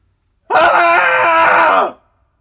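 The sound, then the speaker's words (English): A group of people lets out a cathartic scream together: one loud, sustained burst of about a second and a half. It starts abruptly, holds steady and raw, then cuts off sharply into silence. “let's do a cathartic scream together. We'll give you a three count and then we're off.”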